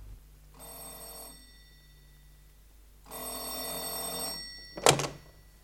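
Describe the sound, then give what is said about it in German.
A telephone bell rings at night, shortly after eleven, while someone lies in bed: two long, bright metallic trills separated by a pause, followed by a single short, sharp knock. “ich lag schon im Bett, als das Telefon läutete.”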